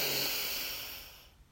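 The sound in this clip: A deep breath drawn in during a guided relaxation exercise, heard as a soft, steady airy hiss that slowly fades away.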